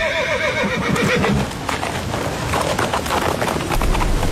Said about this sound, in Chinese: 马蹄轻踏，缰绳拉起